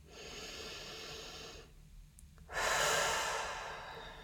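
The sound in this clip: A deep breath is drawn and released as two airy, breathy passes separated by a brief quiet gap. The second is louder and fuller and fades gradually.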